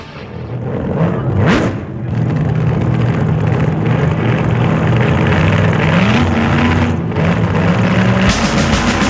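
A nitro-fuelled race car engine roars steadily and loudly for the whole stretch, its tone climbing partway through, with no talk.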